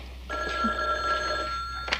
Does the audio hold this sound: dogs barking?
no